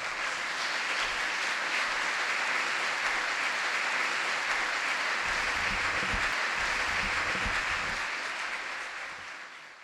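Applause for Governor Bill Walker as he is introduced: a broad, even wave of clapping that holds steady for nearly ten seconds before fading out at the end.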